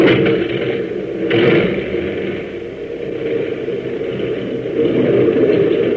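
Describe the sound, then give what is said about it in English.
A light aircraft engine drones steadily as the plane taxis slowly off a hangar apron and across turf toward the runway. The rumble is continuous and swells slightly at a couple of points. “Easing the throttle forward, Hop taxis slowly off the hangar apron and rolls across the turf toward the runway.”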